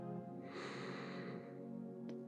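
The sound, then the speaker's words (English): A deep breath drawn in through the nose, a soft airy inhale lasting about a second, quiet over a steady low musical drone. “Take a deep breath in through your nose, allowing your lungs to fill with air.”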